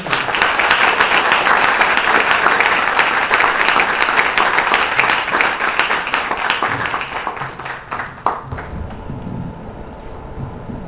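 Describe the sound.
An audience in Toronto applauds to welcome the speaker Devamitra Swami. Dense, loud clapping holds for about eight seconds, then thins into quieter noise.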